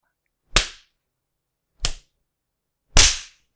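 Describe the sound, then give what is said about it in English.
Whip strikes land three times in a slow, uneven rhythm. Each is a loud, crisp crack with a short decay, the last the strongest, and no voices come between them. “I would give you one whack for every day you annoyed me, but then we would be here all night.”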